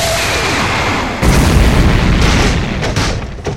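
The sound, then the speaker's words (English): A loud explosive blast from a power attack fired into a forest to knock down trees: a deep booming burst about a third of the way in breaks over steady noise, then rumbles on and slowly fades. “You firing off Knuckle Busters into the middle of the forest to knock down trees is not doing us any favors.”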